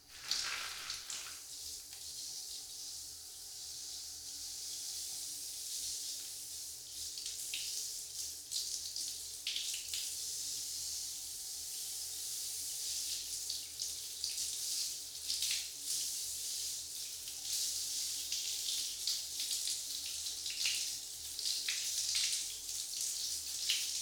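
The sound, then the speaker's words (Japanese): Hot water runs steadily at a barber as hair is washed, a continuous hissing splash with small fluctuations that lasts the whole time, with no talk. “まずは髪の毛をお湯で洗っていきますね。”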